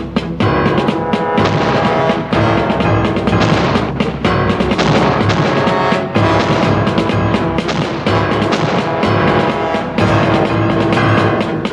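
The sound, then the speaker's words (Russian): A cannon fires from a ship at a shipyard shore, with heavy booming blasts recurring many times. The shots ring out over a loud, dense, continuous backdrop. “С одного из кораблей стреляют из пушки.”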